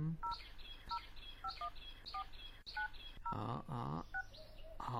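A telephone number is dialed on a keypad, producing a quick series of short, evenly spaced tones, each a pair of clear beeps. Steady low background noise runs underneath, and no voices are heard.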